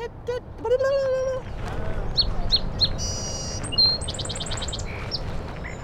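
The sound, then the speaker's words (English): Wild birds sing during a bird walk at a riparian preserve in Gilbert, with bright, quick chirps and short whistled trills scattered through the passage. People talk over the birdsong. “There are regional accents for birds, which I know sounds kind of crazy, but it's true. But that cadence is very similar all over the country.”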